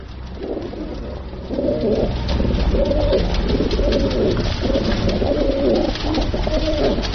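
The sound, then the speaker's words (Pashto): Pigeons coo with other birds at a bird market in Kabul where pigeons and other birds are sold. The cooing is steady and layered, a continuous low warble over a constant market background, with no talk. “کابل کې د کافوري شکوڅه هغه ځای دی چې هلته له کوترو سره نور مارغان هم خرڅیږي.”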